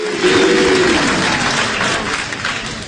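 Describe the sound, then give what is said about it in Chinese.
Audience applause fills the hall at a comic crosstalk stage performance: a thick roar of many clapping hands, loudest at the start and easing only slightly as it goes on. “谢谢朋友们， 谢谢大家伙的掌声鼓励。”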